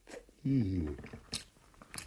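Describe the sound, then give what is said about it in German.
Biting into and chewing a roast bird at a meal: a hummed, voiced munching sound, then a couple of short crunchy bites later on, with speech nearby. “Ich wär jetzt einmal da in dieses zweite Vogel da reinbeißen.”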